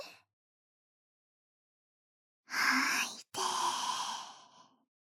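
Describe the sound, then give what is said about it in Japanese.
Slow, calming breaths: a brief breath trails off at the start, then silence. Two long, audible breaths follow back to back, soft and airy, the second fading gradually. “吐いて、吸って、吐いて、吸って。”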